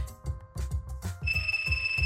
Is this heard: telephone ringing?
yes